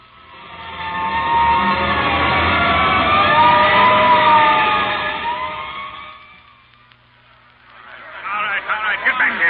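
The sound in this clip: A fire engine siren wails in loud, rising and falling harmonic tones on the way to a fire. It holds for most of the stretch, then fades away, and voices start talking near the end.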